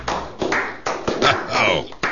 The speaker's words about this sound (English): Give it up, please, for Bill Cleveland.